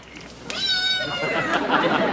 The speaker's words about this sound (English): Was that a cat? Oh, yes. I have lots of cats.